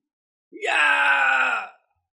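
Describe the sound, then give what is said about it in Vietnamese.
A single anguished human scream, drawn out for just over a second. Its pitch rises sharply at the onset, then it holds steady and loud before cutting off into silence. No other sounds accompany it. “Những tiếng kêu thảm thiết thê lương liên tiếp vang lên.”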